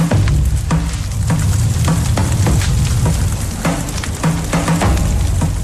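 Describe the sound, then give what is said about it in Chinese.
Tea leaves roasting in a special clay pot heated over a hearth fire, giving a continuous dry sizzle broken by many sharp crackles and rattling bursts in an uneven rhythm. “特制的陶罐在火塘上加热，放入冒茶，倒茶烘烤，茶叶中的湿气和杂质不断被排出。”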